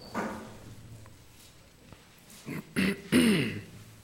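Someone clears a hoarse, froggy throat during a reading of scripture verses: a soft rasp at first, then a few short, rough, gravelly bursts in quick succession near the end, with no other sound between them.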